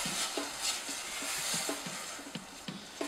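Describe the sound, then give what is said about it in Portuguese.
White wine simmers with onion and risotto rice in a pan, a faint, even sizzling hiss with a series of light, regular stirring taps and scrapes. “E juntamos o vinho branco. Deixamos que ferva até que o vinho tenha evaporado todo.”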